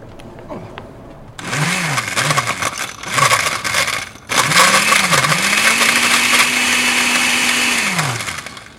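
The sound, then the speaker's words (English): A blender blends a drink, giving a few short motor pulses that whir up and drop away, then one long steady high-pitched run that winds down at the end, loud and alone. “All right, let's go blend. Let's go blend. I'll do the blending.”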